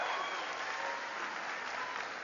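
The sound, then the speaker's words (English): An audience at a political campaign event claps in dense, steady applause that stays at an even level throughout. “Give Annie a big round of applause.”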